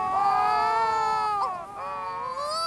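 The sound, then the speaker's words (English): Wedge-tailed shearwaters wailing in a duet on the ground, throats puffed: eerie, drawn-out moaning cries with slowly wavering pitch, nearly continuous with a couple of brief dips, loud and alone. “wedge-tailed shearwaters sit facing one another on the ground and puff up their throats to perform long duets of eerie wailing”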